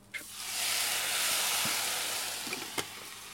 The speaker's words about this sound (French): Et bien, comme ça commence à attacher, on va quand même commencer à verser euh, ben, le jus.